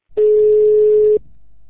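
A telephone busy tone after the other party hangs up: one loud, steady, mid-pitched beep about a second long, then faint line noise.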